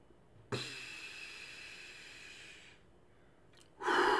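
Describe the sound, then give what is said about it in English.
A slow, deep breath, heard as a long soft airy hiss lasting over two seconds. A quiet pause follows, and a louder breathy rush starts at the very end. “One, breathe. Let's do it again.”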